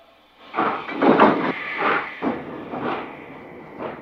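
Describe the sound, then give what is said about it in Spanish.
A steam train pulling away from a station, with bursts of hissing steam and heavy chuffs that swell and fade irregularly, alone with no voices. “El tren inicia la marcha.”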